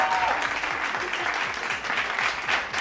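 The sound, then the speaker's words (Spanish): Steady applause from a crowd celebrating a listener who has just announced an engagement, an even, fairly loud patter of clapping that continues throughout. “Espo, échales una porra. Sí, una porra.”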